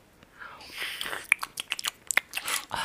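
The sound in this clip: Crisp biting and chewing as someone tastes a power food made from the acai berry, with a few sharp crunchy clicks among softer, irregular mouth sounds, all fairly quiet.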